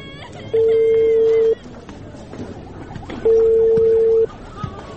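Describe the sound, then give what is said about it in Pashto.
A telephone call being placed: two long, steady mid-pitched ringing tones, each about a second long, separated by a pause, over a faint background. “ته صبر چې پلار ته مې زنګ ووهم او زیری پې وکم.”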